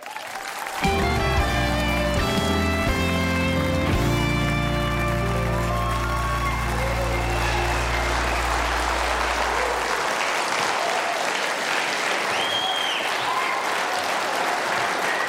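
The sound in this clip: An audience gives a guest a long, loud hero's welcome of applause, with musical tones sounding under the clapping at first before the applause carries on alone.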